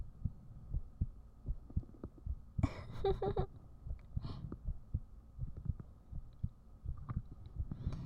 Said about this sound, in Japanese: 心臓音が大きすぎて、あんまり綺麗に音が入らない。